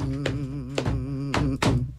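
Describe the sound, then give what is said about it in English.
A few uneven, hard thuds of hands banging on a table ring out over a sustained, wavering tone. “So we usually don't bang on the tables during radio programming, but this was appropriate.”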